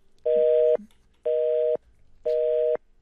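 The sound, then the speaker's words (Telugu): A telephone busy tone sounds after a caller's line is cut off during a radio phone-in: three steady, evenly spaced mid-pitched beeps, each about half a second long, with no voices. “Call cut అయిపోయినట్టుంది.”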